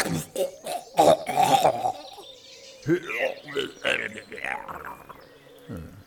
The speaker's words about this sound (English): More phlegm, sir. With a sort of gurgly death rattle at the end.